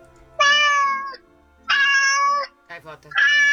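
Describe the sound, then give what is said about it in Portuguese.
A cat meowing three times in long, high, harmonic calls separated by short pauses, with a brief softer sound just before the last meow. “Isto é gato. Acho que é gato.”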